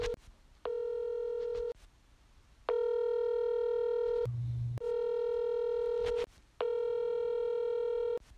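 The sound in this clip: An internet phone call rings out with four long, steady, buzzy tones separated by short pauses. A brief lower tone sounds between the second and third rings, and no voices are heard.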